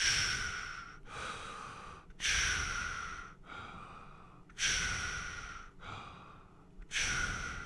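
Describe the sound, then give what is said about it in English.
Calm, rhythmic breathing for endurance exercise: slow, soft breaths alternate in and out in an even cycle, each lasting about a second, with no talking. “So you want to make sure you're breathing, but you want to breathe at a very calm pace. So breathing for endurance things sounds calm.”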